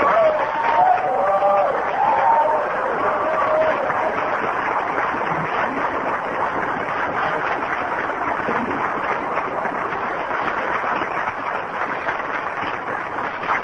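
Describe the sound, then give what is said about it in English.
Audience applause welcoming a speaker to the stage, a sustained, even wash of clapping that lasts the whole clip, with a few voices near the start. “I'm looking forward to hearing Joe, as I look forward to hear all my friends. And I love him, and I'm glad he's here with us. And let's give Joe a big Cornhusker round of welcome.”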